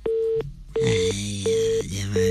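A telephone line tone as a radio call-in connects: four short, evenly spaced beeps at a steady mid pitch, with brief gaps between them and a lower hum underneath.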